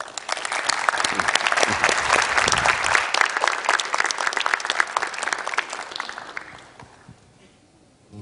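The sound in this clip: An audience claps to welcome two musicians at a church gathering, a dense, steady burst of applause that stays full for several seconds, then thins and fades out near the end.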